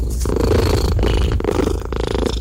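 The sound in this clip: A cat purring makes a low, rumbling, continuous vibration that swells and eases in a slow rhythm with its breaths, loud and close throughout.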